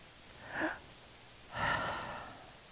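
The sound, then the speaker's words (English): A person breathing out audibly: two soft breaths, the second longer and fuller, trailing off slowly. Faint, alone, with no speech. “I exhale.”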